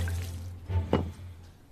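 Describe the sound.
Water is poured for a plant, a brief, faint splash and trickle with a soft wet burst near the middle.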